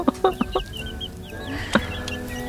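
Chicks cheep in thin, high, falling peeps, while a few low hen-like clucks sound at the start.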